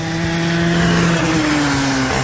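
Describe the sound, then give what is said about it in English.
A go-kart engine revs on a race track. It makes a loud, steady droning whine whose pitch dips slightly toward the end. “burn rubber as you go around the track in a go-kart race.”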